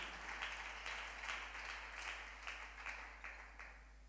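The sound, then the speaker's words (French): A church audience applauds during a service, a sustained wash of fairly faint clapping with soft rhythmic pulses running through the whole stretch. “Est-ce qu'on peut applaudir pour la victoire?”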